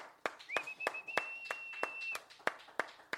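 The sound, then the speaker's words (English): Sparse audience clapping at a courtyard art gallery event, about ten sharp claps in an even, steady rhythm, with a long sustained whistle-like tone running through the middle stretch. “let's give a big round of applause to Carlos in the Courtyard Gallery”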